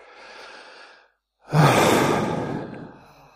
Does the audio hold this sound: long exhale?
yes